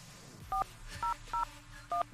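Telephone keypad tones dial a number: four short, clear beeps at uneven intervals, each a bright two-tone chirp over a low, steady background hum.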